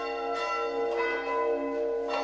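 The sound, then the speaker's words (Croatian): Church bells ring from the tower of a Serbian church in Knez, with sustained, overlapping metallic tones and a few fresh strikes renewing the sound at steady loudness, with no voices. “Meštani su popunili svoj toranj zvonima. Razleže se.”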